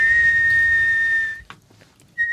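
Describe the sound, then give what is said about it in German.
High-pitched whistling by mouth during a contest over who can whistle highest: a single steady, piercing tone held for over a second, then a short break with a faint click, before the same high note briefly returns. “Also wir könnten mal probieren, wer am höchsten pfeifen kann und am tiefsten.”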